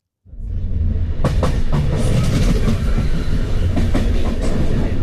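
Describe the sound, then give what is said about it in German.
A regional express train rolls along the tracks through the Po plain in northern Italy near Bergamo, a loud, steady rumble with a rhythmic clickety-clack of wheels over rail joints. There are no voices. “Der Regionalexpress rollt durch die Po-Ebene.”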